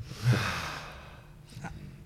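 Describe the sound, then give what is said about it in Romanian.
Deep abdominal breathing during a breathing exercise, with one fuller, rougher breath early on and a softer breath later, both faint and airy, with no talk. “respiră adânc, respiră abdominal, oricât de ciudat ar părea, hai să, o să putem să facem asta chiar acum.”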